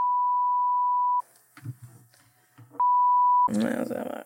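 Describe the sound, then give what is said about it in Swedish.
Ringback tone of a telephone call being placed: two long, steady, mid-pitched beeps separated by a quiet gap with faint background sound, followed by a voice speaking at the end. “Vi ska ringa till Emil.”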